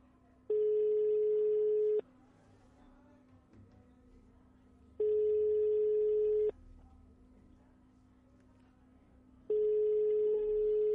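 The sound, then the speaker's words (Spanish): A telephone ringing tone while a call is dialled: three long, steady beeps of the same pitch at even intervals over a faint low hum. The third is cut off at the end. “Vamos a intentar esta llamada, a ver, a ver, a ver. A ver, vamos a ir con otra. Vamos a otra llamada a ver si tenemos suerte”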